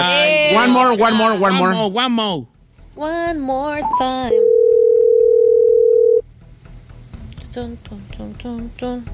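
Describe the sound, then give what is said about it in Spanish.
A telephone call rings through to voicemail: one steady, mid-pitched ringing tone lasts about two seconds. Lively talk comes before and after it. “A ver, le voy a marcar porque no lo oigo.”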